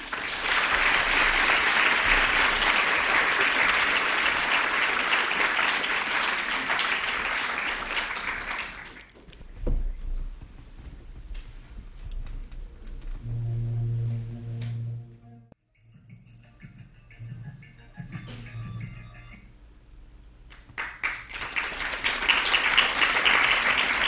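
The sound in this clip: An audience applauds to welcome a lecture speaker. Loud, sustained clapping fills the first nine seconds, then dies down while a voice speaks, and the clapping swells again near the end.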